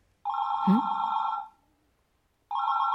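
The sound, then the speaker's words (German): A telephone rings with a bright electronic trill, steady and loud. One long ring is followed by a pause, and a second ring begins and is cut off at the end. “Das Telefon klingelt. Das Telefon klingelt.”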